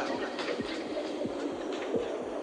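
Heartbeat at a clinic: soft, low thumps repeating at a steady, fairly quick pace beneath a constant hiss, faint and with no voices.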